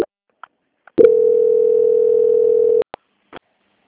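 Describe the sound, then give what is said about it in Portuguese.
A steady single-pitched telephone tone plays during a bank call transfer while the caller is on hold, lasting just under two seconds, with brief clicks before and after it. “Só aguarde em linha que eu vou transferir aqui. Transferência.”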